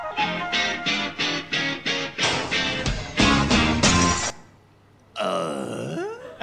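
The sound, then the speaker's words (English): A voice imitates Tim the Toolman Taylor's grunt from Home Improvement. A rapid run of repeated rhythmic vocal bursts is followed by a brief silence, then a drawn-out, throaty grunt that falls in pitch. “The first one that we did was Tim the Toolman Taylor's grunt at the end of Home Improvement, which, if you're not familiar with, sounds a little bit like this.”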